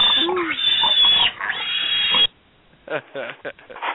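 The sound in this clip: Pig oinking and squealing in short grunting bursts, with a brief silent gap midway before a few more choppy snorts.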